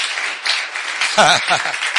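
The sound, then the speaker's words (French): Brief audience applause and cheering for a woman during a French-language Bible reading. A short burst of loud clapping is heard, with a voice rising over it in the second half. “Est-ce qu'on peut acclamer pour cette femme-là?”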